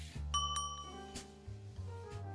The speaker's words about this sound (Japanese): 外でベルが鳴ったみたいですね